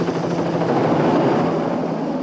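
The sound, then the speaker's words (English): Helicopter flying over a ridge of trees: a steady, dense drone of rotor and engine holds at an even, moderately loud level throughout, with no voices. “They glance up at a chopper as it appears over a ridge of trees.”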